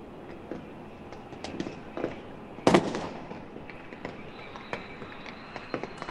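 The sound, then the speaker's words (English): Fireworks go off over a crowded Tahrir Square: many scattered pops and crackles, with one loud, sharp burst in the middle, over a steady background rush. “And if you want to listen, you can hear these fireworks going off.”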